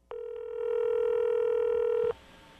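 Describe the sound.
A telephone call tone: one steady, bright, buzzy beep with strong overtones. It begins with a click, holds for about two seconds and cuts off abruptly.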